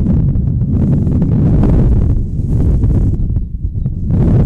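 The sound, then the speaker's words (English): Strong wind buffets the microphone during an outdoor softball game, a loud, continuous low roar and rumble that fills the whole clip with no talk. “The wind is blowing harder now than it has all day, and it's been blowing hard all day.”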